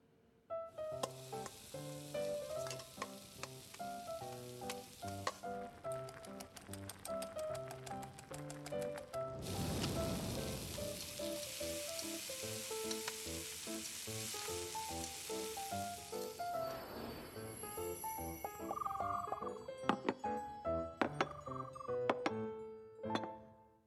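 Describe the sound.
Food sizzles and fries in a pan in a dramatized cooking scene. A steady, hissing wash runs under loud melodic music with plucked and tinkling notes, and the music continues after the sizzling thins out.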